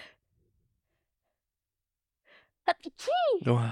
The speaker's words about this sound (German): warte, ich muss niesen.